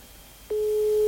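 A steady telephone line tone from a call going unanswered on live radio. It starts abruptly after a brief hush and holds one unbroken pitch to the end.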